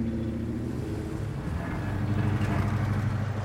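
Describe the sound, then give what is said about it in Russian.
Steady low engine rumble from a car driving along a broken, potholed road between shabby factory buildings, continuous and fairly loud throughout, with no talk. “Автомобиль Дегтярева движется по разбитой дороге между обшарпанных зданий завода.”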